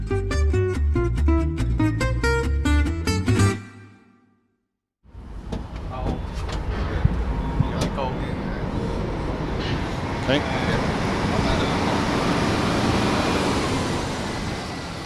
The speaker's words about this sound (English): That noise you hear is the sound of global commerce in action. The port of Hong Kong is one of the biggest shipping junctions in the world.